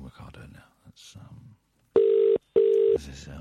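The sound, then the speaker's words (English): Ringback tone of an outgoing telephone call: two steady buzzing bursts in quick succession, loud and even, between stretches of a person talking. “I'm calling Ricardo now.”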